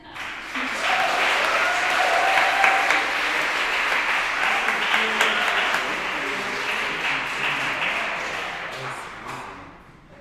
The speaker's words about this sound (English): So please, roll your shoulders and pair your hands together and welcome Oluwaseun Olayiwola to the stage